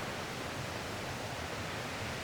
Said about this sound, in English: So you can probably hear the water in the background there. I'm at the bottom of the valley and I'm walking on a path.